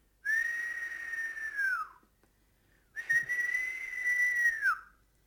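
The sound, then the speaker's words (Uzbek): Soft whistling: two long, steady whistled notes, each ending with a brief downward slide, separated by a short pause, with no talking. “Gilamcha daraxtdagi qushlarning uyg'atmoqchi bo'libdi. Astagina hushtak chalibdi.”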